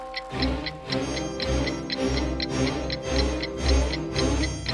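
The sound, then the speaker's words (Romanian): A clock ticking within a children's fairy tale set at a king's court, with many sharp, even ticks in a steady rhythm and a low background hum between them. “Ceasul a bătut din nou”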